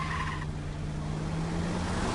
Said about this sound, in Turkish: Araba devam etti.